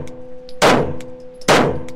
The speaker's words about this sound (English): it fires quickly, but he has to pull the trigger each time. So it's a pop, pop, pop.